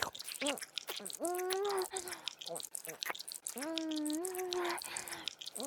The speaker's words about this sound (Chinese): 这么诱人的臭脚，我一定要舔个够。太好吃了，臭脚。